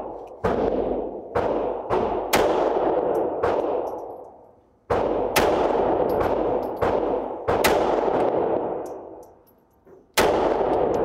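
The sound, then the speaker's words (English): A handgun fires at a target in many sharp, loud shots spaced irregularly over several seconds. Each crack leaves a long ringing decay, and there are short quiet gaps between some of them. “This gun is now live with a bullet in the chamber, but the safety is still on. Safety off, finger off the trigger until I'm ready to shoot.”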